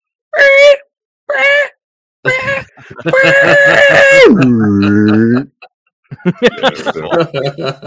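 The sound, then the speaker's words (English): A person's voice imitates a giant movie monster's roar. A few short wailing bursts build to a long, loud, strained screech that drops sharply into a lower growling tone, followed by short choppy vocal sounds. “let's hear your best Godzilla scream”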